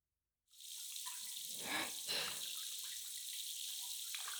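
Water runs while conditioner is rinsed from hair, a soft, steady hiss and splash that starts suddenly after a short silence and stays fairly even and faint to the end.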